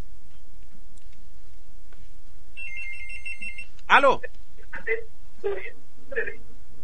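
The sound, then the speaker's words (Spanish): A telephone ringing with one short, bright electronic trill over quiet background hiss, followed by a few brief vocal sounds. “Está sonando el teléfono.”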